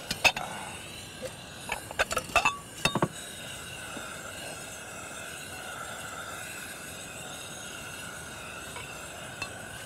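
Plates and dishes clink as a table is set for a meal of bread and orange juice. A cluster of sharp clinks and knocks comes in the first few seconds, followed by a quiet stretch with one faint clink near the end.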